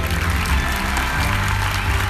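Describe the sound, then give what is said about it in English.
Enthusiastic audience applause at a film festival screening of an Egyptian film: a dense, steady wash of clapping that fills the whole clip at an even level. “An Egyptian film got enthusiastic applause at a screening Wednesday night.”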